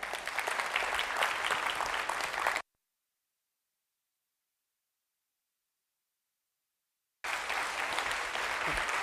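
Audience applause welcoming a couple onto a stage: a steady wash of many hands clapping, broken by a few seconds of complete silence before the same even clapping resumes.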